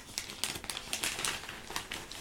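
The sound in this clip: A newspaper page being turned gives a papery crinkling rustle, a quick series of crisp crackling bursts lasting about two seconds at moderate to low volume, with no talking.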